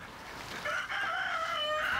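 A rooster among backyard hens, kept in a garden alongside rabbits and runner ducks, gives a single drawn-out crow. The call starts partway through and carries on to the end, fairly faint, with no voices.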